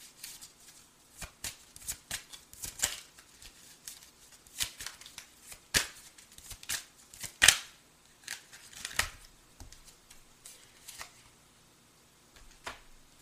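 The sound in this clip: Playing cards are handled and dealt at a card game, giving many faint, sharp snaps and flicks at irregular intervals, some louder than others, with quiet gaps between them.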